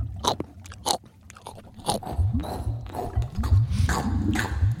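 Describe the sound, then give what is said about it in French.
Two children bite into and eat chocolate brioche, with a few crisp bites at the start, then denser, moist chewing and squishing that grows steadier toward the end. “Les deux enfants commencent à manger un petit peu de brèche chocolat.”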